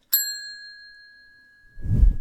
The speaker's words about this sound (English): Now, see that bell? Give it a little tap for me.